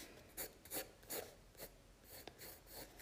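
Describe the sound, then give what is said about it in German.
Faint scratchy strokes of drawing the eyes of a portrait, heard alone as several short rasping bursts in an uneven rhythm. “Auf jeden Fall, ich zeichne diesen Typen jetzt nach. So, ich bin gerade bei den Augen dran.”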